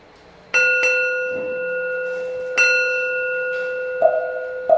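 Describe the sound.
A bell rung for a Buddhist bell chant: a few clear metallic strikes, each followed by a long, humming ring that slowly decays between hits, with fainter sounds near the end.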